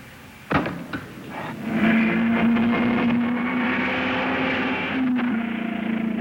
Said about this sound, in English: for the third and final trial, the Stanley Special, car number 6, driven by Billy Coy.